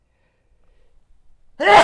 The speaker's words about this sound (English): Hold on, gotta sneeze.